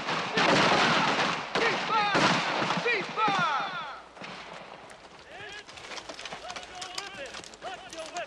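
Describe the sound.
Rifle gunshots from soldiers at military target practice: a dense run of many sharp cracks during the first half, then scattered, quieter shots, with voices throughout.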